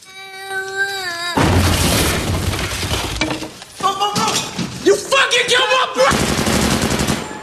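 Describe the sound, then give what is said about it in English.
Gunfire and a grenade blast inside a room as soldiers shoot open a door during a raid: a brief tonal opening gives way to loud, dense, crashing bursts of shots and debris that surge several times. “one of them shoots open a door and throws a grenade inside.”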